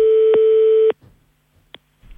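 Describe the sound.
A steady telephone tone sounds after a voicemail cuts off. It holds evenly for just under a second and then stops abruptly, leaving faint line noise and one brief click.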